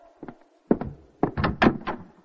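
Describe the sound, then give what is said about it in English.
Knocking and thumping on a wooden door, several irregular heavy hits in quick groups, with no voices. “You don't have to break down the door.”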